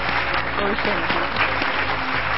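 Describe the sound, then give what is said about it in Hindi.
Loud, continuous applause from a studio audience welcomes a guest onto a TV talk show stage. The dense clapping holds steady throughout, with a faint voice beneath it. “जोरदार तालियों के साथ स्वागत कीजिएगा श्रीमती रंजना कुमार जी का।”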